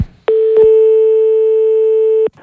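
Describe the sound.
A telephone line tone sounds while a call is placed: one steady, held mid-pitched tone lasting about two seconds, with brief clicks at its start and end and no talk.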